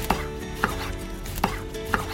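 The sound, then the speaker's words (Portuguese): Knife chopping a peeled onion coarsely on a table: four crisp, evenly spaced cuts against the board, fairly quiet, with no talking. “Vamos começar com a cebola. Já tá aqui em cima da minha mesa, já tá descascada e eu vou só picar ela de um jeito bem grosseiro para colocar no liquidificador.”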